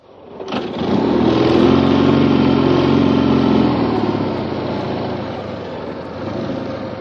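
A motorcycle with a sidecar starts up and drives off. A sharp burst is followed by a loud, buzzing engine roar that holds steady for a few seconds and then eases slightly.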